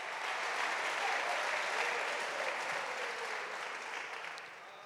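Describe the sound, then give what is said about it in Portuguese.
Worshippers applauding during a church inauguration service, a thick, continuous patter of many hands that stays strong and level, then eases and fades toward the end. “Alguém pode aplaudir a isso?”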